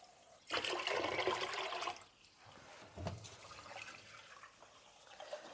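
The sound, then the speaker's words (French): Water pours into a cooking pot as the fourth litre goes in for fresh pasta: a loud, full rush for about a second and a half, then a softer, uneven splashing and trickling. “Je verse mon quatrième litre d'eau.”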